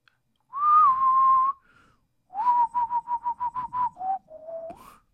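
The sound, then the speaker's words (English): A person whistles a rock song's tune in clear, pure tones. One long held note comes first, then a quick run of short repeated notes, and the phrase ends on a few lower notes that rise at the close. “He's whistling that 311 song.”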